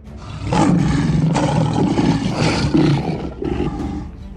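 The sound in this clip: Two lions roar as they enter a royal sleeping chamber inside a vast fort, their deep, loud, sustained growling roars surging in a few strong bursts with no talk over them.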